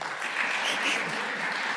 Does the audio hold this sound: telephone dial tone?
no